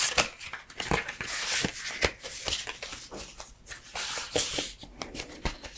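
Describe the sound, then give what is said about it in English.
Playing cards are shuffled and mixed, giving a busy run of crisp riffling clicks and papery flutters that repeat quickly and steadily throughout, with no voices. “Now, let's mix the cards and see who's next.”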